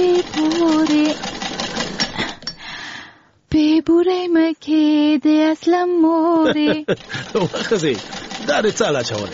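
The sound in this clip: Rapid, rhythmic mechanical clatter of a sewing machine mending a curtain runs beneath a prominent singing voice, stopping briefly midway before starting again.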